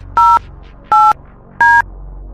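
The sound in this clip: Telephone keypad tones dial a number for a live radio call: three short, loud dual-pitch beeps, evenly spaced and heard alone over a low hum.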